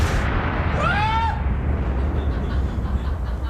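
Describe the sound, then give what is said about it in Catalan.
Explosion of a space shuttle, damaged by a piece of foam, breaking apart before landing at the Florida space centre. A deep, loud, sustained rumbling roar with a brief whistling tone early on, then steady noise that fades only slightly. “Quan només falten 16 minuts per l'aterratge al centre espacial de Florida... Sí. La nau explota i els seus trossos s'escampen per tot l'estat de Texas.”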